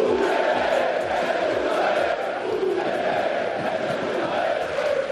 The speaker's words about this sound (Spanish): Cánticos de púdrete en segunda B cantaban los seguidores del Celta contra los seguidores del Depor.